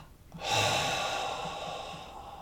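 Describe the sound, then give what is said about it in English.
A long, breathy exhale released during a guided breathing exercise after holding at the top of an inhale. It rushes in fairly strongly after a quiet moment, then tapers off gradually with a soft, airy hiss. “Hold at the top, focusing at the spiritual eye for just 3 more, 2, 1, and then a double exhale.”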